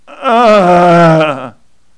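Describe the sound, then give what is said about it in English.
A person gives one drawn-out, loud voiced groan of just over a second while stretching a body worn out from hauling bags of dirt for gardening. The groan holds a fairly steady pitch, then stops abruptly. “And at the end of the day or the start of the next, as I'm trying to unfold my body, the only response is to groan.”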